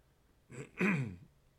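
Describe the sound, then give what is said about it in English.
A man clears his throat in two rough, raspy bursts, a short one followed by a longer, louder one, with no other sound around them. “He just clears his throat all the time at the end of the show.”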